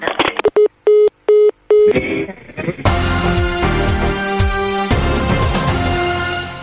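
Telephone keypad dialing tones: a handful of short, clean beeps followed by a few longer, evenly spaced ones, then full music takes over loudly.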